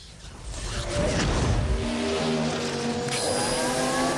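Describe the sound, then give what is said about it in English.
A yellow race car's engine flares and surges ahead at high speed near 160 mph, a loud rushing whoosh building into a sustained, droning engine roar. “An engine bursts aflame and the yellow car surges ahead.”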